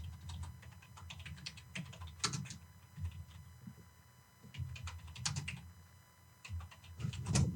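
Typing on a keyboard: quick clusters of light clicking keystrokes in irregular bursts, with short pauses between them, fairly quiet and with no voices.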